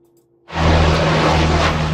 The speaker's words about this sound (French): La lutte contre le feu vient entre autres du ciel. Des avions, dont des canadaires, effectuent des largages sur de larges zones.